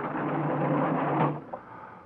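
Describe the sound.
A hatch opened on a craft that has just surfaced in New York's East River: a sustained mechanical grinding whir lasting over a second that fades away, followed by a single short clunk.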